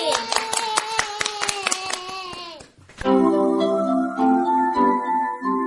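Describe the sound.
Children clapping for themselves on a radio riddle show, a run of about eight sharp, evenly spaced claps with high voices over them, followed by a sustained tonal passage once the clapping stops.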